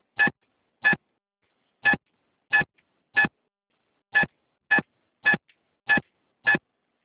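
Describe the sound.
Telephone keypad tones key in a card number on a card service hotline: ten short, evenly pitched beeps arrive in an uneven rhythm, separated by brief pauses, with no voice.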